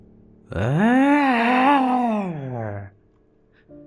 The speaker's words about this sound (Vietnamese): Tiếng kêu rên thảm thiết vang lên.